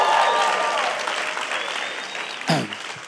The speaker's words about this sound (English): Hey, 1 p.m., if you love Jesus, I want you to make some noise in this house.